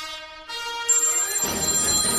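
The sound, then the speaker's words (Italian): A telephone ringtone plays as an electronic melody of clear tonal notes that shifts pitch a couple of times. Partway through, a hissing noise rises and continues beneath it. “Non può suonare il telefono adesso, non può suonare il telefono adesso.”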